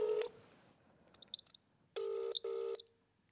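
Touch-tone beeps sound as a telephone number is dialled from a TV show's control room to reach a caller. Three faint tones play: a short one first, then after a pause a closely spaced pair.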